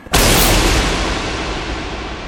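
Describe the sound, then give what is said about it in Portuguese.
A magic spell's explosion in a fantasy role-playing game bursts out suddenly as one loud, full-bodied blast, then trails off into a long, dense roaring wash that fades only slightly. “E o feitiço proferido gera uma explosão que quase cega vocês.”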